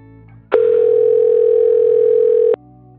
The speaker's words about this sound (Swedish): så får jag nu ringa en rådgivare, Linda Elving närmare bestämt.